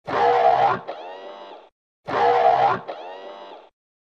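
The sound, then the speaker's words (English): The Star Wars gonk droid's sound, played twice in identical form: each is a low, buzzy honking grunt followed by a softer drawn-out tail, with a short silence between the two. “Every time we get a gonk sighting, we gotta play the sound.”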